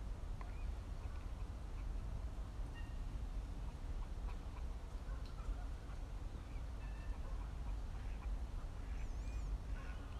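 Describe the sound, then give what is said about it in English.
Water birds calling by a lake, duck-like quacks and short chirps scattered faintly over a steady rush of breeze, with no voices. “And I now have the privilege of sitting here by the lake, feeling a little bit of breeze, thankfully, and watching the water birds.”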